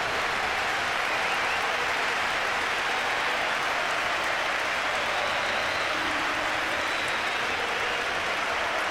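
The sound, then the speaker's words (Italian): Football fans at a match applaud a substituted player: dense, continuous clapping from a large crowd that holds steady and loud for the full stretch. “Applausi dei tifosi goriani per Obiang”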